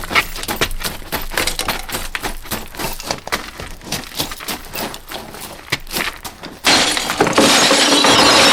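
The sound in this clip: Window glass smashed to break into a house that has a steel door: many loud, sharp crashing hits in rapid succession, then a louder, sustained rush of noise at the end.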